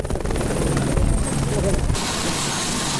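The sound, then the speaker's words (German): A helicopter flies down a valley in earthquake-struck Nepal, carrying supplies toward Namche Bazaar. Its rotor and engine make a loud, continuous drone with a rapid rhythmic chop that holds steady throughout. “Sie erreichen einen Hubschrauber, der Versorgungsgüter nach Namche Bazaar bringt und sie auf der leeren Fläche hinter dem Pilotensitz talabwärts in einen kleinen Ort fliegt”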